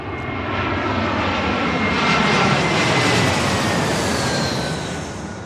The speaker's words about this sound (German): Gerade kommt eine Maschine auf die Startbahn.